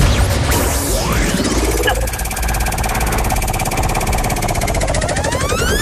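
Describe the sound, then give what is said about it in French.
A game show prize wheel spins, giving a dense, rapid run of clicks under rising electronic sweeps and tones, loud and continuous throughout. “Donc pour le lancement de la roue, vous me dites top quand vous voulez pour lancer et top quand vous voudrez l'arrêter.”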